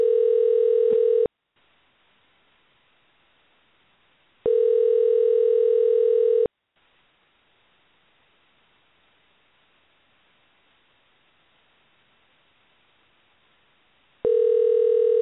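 A telephone sounds an unusual tone: a steady, single-pitched electronic note in three bursts, the first two about a second or two long and the last cut off, separated by long stretches of near silence.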